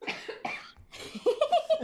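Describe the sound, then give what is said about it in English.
A person coughs during a music interview, a few short, fairly loud coughs in quick succession with a rougher, voiced throat sound at the end, alone without talk. “I'm coughing as well.”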